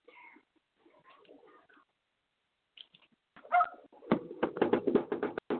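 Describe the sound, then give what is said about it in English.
A pet dog barking outside a window: faint scattered sounds at first, then a rapid run of many sharp barks that grows louder toward the end. “My apologies if you can hear my pooch barking outside my window.”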